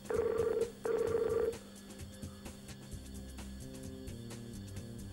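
A telephone call rings out: two loud, evenly spaced electronic ring bursts, followed by a quieter low hum on the line.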